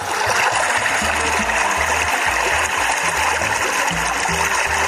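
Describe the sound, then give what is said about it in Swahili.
Water at the shore of Lake Kivu in Goma's Himbi district, where residents draw water. A steady, loud wash with a splashing, trickling texture runs throughout, and no one speaks. “Hapa tuko ndani ya kata Himbi pembezoni mwa ziwa Kivu, mahali wakaaji wengi wa mji wa Goma wanachota maji baada ya kutia ndani dawa.”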